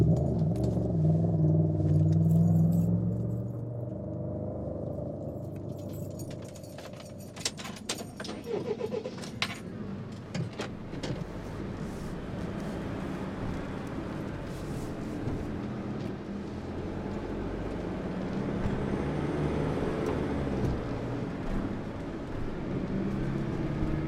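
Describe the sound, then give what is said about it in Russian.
Keys jangle briefly, pulled from a wallet inside a van's cab, over a steady low engine rumble as the van runs and pulls away, with a few light clicks and rattles along the way. “Девушка села в кабину и из сумки достала портмоне, в котором ключи. Завела фургон.”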